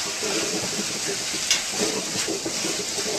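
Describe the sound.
Vegetables sizzle in a pan as a tablespoon of flour is stirred in, a continuous crackling fry with soft stirring scrapes running throughout.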